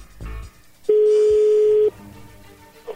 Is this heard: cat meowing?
no

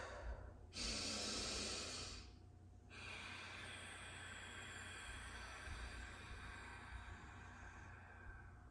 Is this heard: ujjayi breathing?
yes

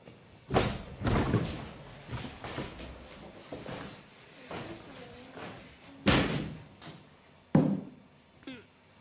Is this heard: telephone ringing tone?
no

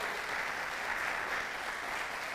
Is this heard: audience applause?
yes

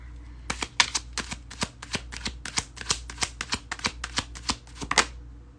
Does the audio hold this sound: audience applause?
no

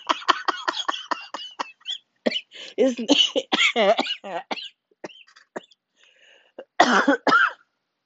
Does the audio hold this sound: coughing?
yes

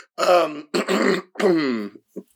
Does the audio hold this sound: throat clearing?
yes

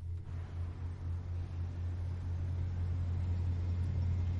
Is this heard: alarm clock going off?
no

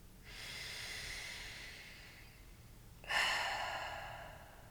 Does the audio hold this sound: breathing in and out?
yes

